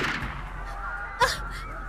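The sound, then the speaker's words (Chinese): A single pistol shot sound effect at a crowded railway station exit: one short, sharp crack over a steady background. “高大侠总算挨近了出站口，方若愚毫不犹豫地扣动了扳机，”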